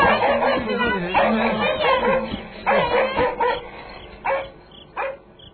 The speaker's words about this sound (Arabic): استطاع أن يتغلب على مجموعة الكلاب السائبة